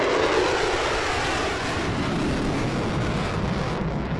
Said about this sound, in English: That is the sound of just one jet flying overhead for Exercise Dawn Strike.